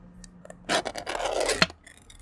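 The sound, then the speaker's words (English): A metal tobacco tin is opened on a front porch: a few soft scraping and rubbing sounds build into a steady grating scrape, with a sharp metallic click near the end, then quieter handling noises. “And I think we're going to crack this tin. This open.”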